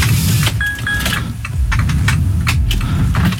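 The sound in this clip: A car engine running during a hill start, a loud, continuous low rumble that surges slightly in revs, with faint clicks above it and no talk.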